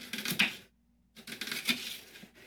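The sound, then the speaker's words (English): A knife slices onions thinly on a board, giving a run of quick, crisp cutting clicks. A short silent pause follows, then another burst of cuts, all fairly quiet. “I'm going to cut them really thinly. Starts cutting.”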